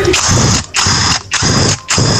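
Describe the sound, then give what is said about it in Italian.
Electric pneumatic impact wrench at a tyre shop working on wheel bolts. It gives four loud, sustained buzzing bursts, each a little over half a second long, with short pauses between them. “Pistola pneumatica elettrica.”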